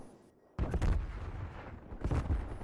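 Video game gunfire comes in two loud clusters of rapid shots, one early and one toward the end, with a steady rumble of battle between them and no talk.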